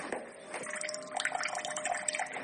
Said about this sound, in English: This is your cold water pressure in the kitchen.